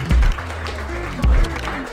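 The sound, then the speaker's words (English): An audience at a local music event applauds in a scattered, moderate patter, while two heavy, deep thumps stand out loudly, one at the start and one about a second later. “So just give yourselves all a round of applause because it is awesome to see you guys here tonight.”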